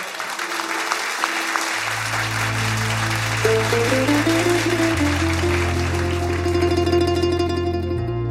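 Audience applause at a Punjabi stage event: a steady, dense patter of clapping lasting the whole stretch, mixed with sustained low drone tones and melodic instrumental notes.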